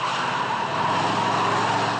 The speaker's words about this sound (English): Hey, this whole thing handles well. Ever drive a hearse